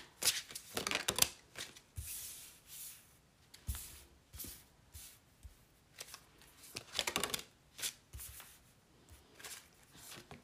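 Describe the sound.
Shuffling tarot cards: a run of crisp papery riffles and rustles in several quick bursts, some loud and some soft, with short quiet gaps between and no talk.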